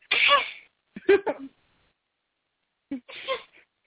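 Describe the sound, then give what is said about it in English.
A voice imitates a baby's suppressed sneeze with three short, breathy, stifled bursts. The first two come close together, then a pause, then the last, all fairly quiet. “She's the only baby I've met so far that tries to suppress her sneezes. And goes,”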